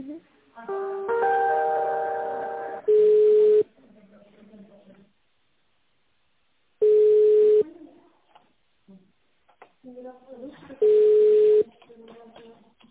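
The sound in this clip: Telephone tones during a call transfer to another department: a short melodic chime, then three long, steady, mid-pitched ringing beeps spaced about four seconds apart, with faint voices in the gaps.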